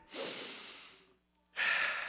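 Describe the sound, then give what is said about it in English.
Deep human breathing: a long, loud breath of air through the mouth and nose, a short quiet pause, then a second strong rush of breath, with no talking. “can you breathe deeply? Do you ever breathe deeply?”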